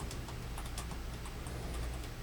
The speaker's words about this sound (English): Hopefully, I'm typing what you're saying.